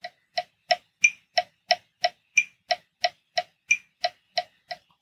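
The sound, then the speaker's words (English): A metronome ticks steadily at 180 beats per minute for running cadence training, with 16 crisp, evenly spaced clicks heard alone and a few slightly brighter accented ticks among them. “Set that metronome to your desired step rate and try to match your foot strike. Again, 180 beats per minute sounds like this.”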